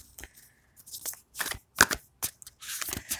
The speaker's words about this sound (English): Card of the day. Using my second gifted deck of Wild Unknown.